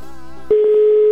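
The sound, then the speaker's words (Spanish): Telephone line tones while a call is dialed: a buzzy tone rich in overtones gives way to a steady, pure, mid-pitched tone that holds to the end. “Ya lo estoy marcando, ¿eh? Ya me había mandado buzón, amigo mío.”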